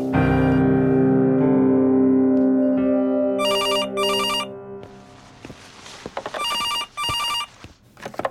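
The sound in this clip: A landline telephone rings with an electronic ringtone in two pairs of short bursts, loud and clear, after several seconds of steady tonal sound. No one speaks.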